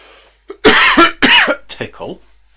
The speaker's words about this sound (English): tickle of a cough, which I can say this categorically, I never have at any other time